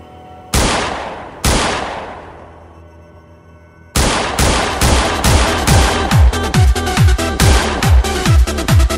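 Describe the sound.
Gunfire rings out: two loud single shots with long decaying echoes, then a pause, then sustained rapid fire of many sharp reports in quick succession.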